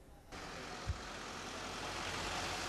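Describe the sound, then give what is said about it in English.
Police vehicles idle at Thames Valley Police headquarters before dawn, giving a faint, steady, low engine rumble that holds level after a soft thump near the start. “3:45 in the morning, we're at Thames Valley Police HQ, and you can see a huge number of police vehicles, dozens of officers.”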